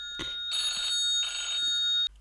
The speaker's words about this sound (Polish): Przepraszam Państwa, że musiałem odebrać telefon.